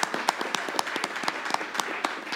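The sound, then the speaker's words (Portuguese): Applause during a town council session: a quick, steady patter of handclaps from a small group, lively and sustained across the whole moment. “Mas eu queria uma salva de palmas para elas.”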